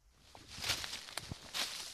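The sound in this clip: Soft footsteps sound on an uphill mountain path while searching for tonewood near Mittenwald, a few faint crunching steps with light rustling.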